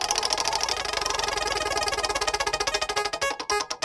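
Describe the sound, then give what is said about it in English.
Clicking of a spinning prize wheel: a fast, even stream of ticks that gradually spreads out as the wheel slows, ending in a few widely spaced clicks. “Let's spin that wheel.”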